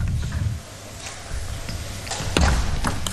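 Table tennis serve in a professional match, the ball striking paddle and table in a few crisp, sharp taps over a low steady background hum.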